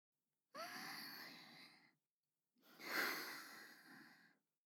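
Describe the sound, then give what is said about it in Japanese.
Someone takes a deep breath: a long, audible inhale, a short pause, then a slow, breathy exhale. Both are soft and heard alone with no talk. “ちょっと待ってください。ちょっとだけ深呼吸させてください。”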